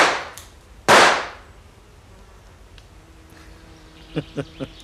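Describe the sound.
Gunshots in a gangster scene set in Chicago: two sharp cracks, the second louder with a ringing decay, then a quiet stretch and a few soft clicks near the end.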